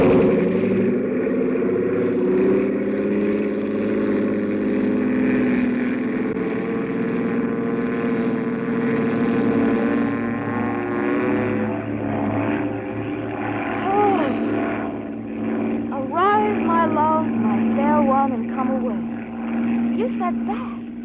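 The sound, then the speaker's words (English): An aircraft takes off with a loud, continuous engine drone and whining tones throughout, and voices break in over it during the latter half. “This is going to be the fastest takeoff in the books. Here we go.”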